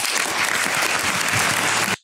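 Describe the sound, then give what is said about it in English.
Applause for a clergyman after a speech: dense, loud clapping from an audience, sustained evenly, then cutting off abruptly at the very end. “Applause for the Reverend Calvin Robinson.”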